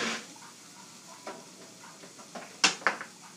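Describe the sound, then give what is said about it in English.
Lunch being stirred in a pot makes faint scraping and shuffling, with a soft sizzling hiss underneath and a couple of sharper clanks of utensil against metal near the end. “It probably took a little longer than usual, folks, because I was stirring up my lunch at the same time.”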